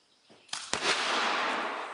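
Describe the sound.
Cannon fire from handmade replica historic guns with wooden wheels, each weighing about 250 pounds: two sharp, loud bangs in quick succession, followed by a long, broad roaring hiss that slowly fades.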